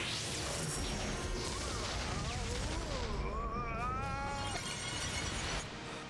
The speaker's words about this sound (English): The multi-attack rifle that is the Quadro Blaster. Let's do it! Quadro Blaster! Huh? Fire!